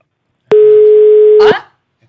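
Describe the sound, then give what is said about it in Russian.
A single steady telephone call tone sounds for about one second, a clear mid-pitched electronic beep, then cuts off into a short burst of noise. “Это нам звонок.”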